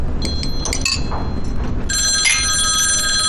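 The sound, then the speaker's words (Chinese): A telephone rings with a work call for a gentleman: a few light bell-like chimes early on, then a bright, steady electronic ringing tone sets in partway through and continues loudly to the end. “好像是您的电话，是工作上的事儿。”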